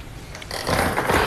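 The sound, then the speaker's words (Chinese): A lottery drawing machine starts up for a live Jiangsu sports lottery 7-digit draw, its numbered balls turning inside. A mechanical ratcheting rattle swells after about half a second into a louder, continuous clatter. “此刻将正式开启本期江苏体彩7位数直播摇奖，请工作人员启动摇奖机。”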